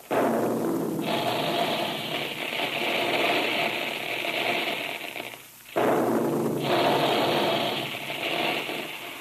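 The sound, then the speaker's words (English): Puffing guns fire at the Quaker plant to puff wheat and rice: two long, loud roaring blasts of broad noise, each held for several seconds and separated by a brief drop near the middle. “those big guns? They're making puffed wheat and puffed rice, those two delicious cereals that are shot from guns right in the Quaker plant”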